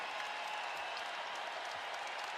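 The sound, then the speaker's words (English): A crowd applauds at a Wisconsin basketball game in the Kohl Center, a steady, even wash of clapping that stays fairly faint and unbroken throughout. “Crowd loving it here at the Kohl Center.”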